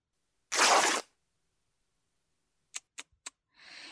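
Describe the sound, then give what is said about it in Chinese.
A shirt is torn open in one short, loud ripping burst of fabric, followed after a pause by a few sharp, brief clicks and a softer rustle at the end. “把他的衬衣撕开，让他露出胸膛。”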